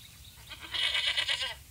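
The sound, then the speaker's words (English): A billy goat bleats once, a single loud, quavering nasal cry that wavers for about a second with no talk over it. “stopped when they met a billy goat. He was chewing on an old bicycle tire, burping often.”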